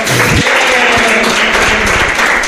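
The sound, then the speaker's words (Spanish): Applause from an audience greeting a 65-year-old man: dense, continuous clapping that holds at an even, fairly loud level for the whole stretch, with a faint voice at the start. “Un aplauso para Felipe.”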